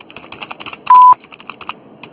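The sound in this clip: A voicemail recording tone sounds once as a single short, steady beep, standing out clearly against faint rapid clicking that runs before and after it.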